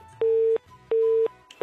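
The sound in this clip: A telephone line tone plays during a phone call: two loud, steady beeps at the same mid pitch, each lasting about a third of a second with a similar gap between them, and a third beep starting just at the end.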